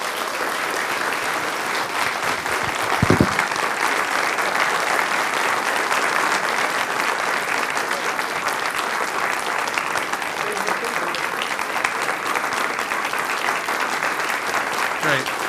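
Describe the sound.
Audience applause welcoming a speaker who is receiving an award: dense, sustained clapping that holds at a steady, fairly loud level for about fifteen seconds.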